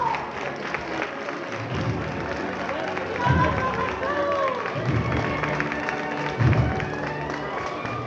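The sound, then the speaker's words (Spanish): A crowd applauds the Señor de la Salud image in a Palm Sunday procession on Bernabé Soriano in Jaén. Sustained, fairly loud clapping mixes with cheering and a hubbub of voices throughout. “aplauso para el señor de la salud.”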